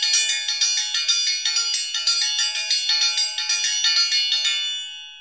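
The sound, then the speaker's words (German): A metal triangle struck with a metal beater rings out in a rapid, even roll of many bright strikes, a high shimmering tone held for about five seconds before fading away on its own. “Ich habe schon mal eine Triangel gespielt. Sie hört sich so an.”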